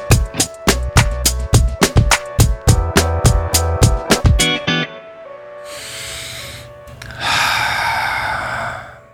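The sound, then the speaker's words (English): A deep breath, a long airy inhale followed by a slow, loud exhale, comes right after a rhythmic, pulsing musical passage fades out. “So I'm starting off with a deep breath.”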